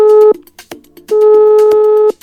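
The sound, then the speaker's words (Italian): A telephone ringing tone plays while a call is being placed. The tail end of one loud, steady tone is followed by scattered clicks, then a full tone lasting about a second. “Vi capita mai che avete voglia di telefonare a qualcuno? Io ci provo, vediamo se mi risponde.”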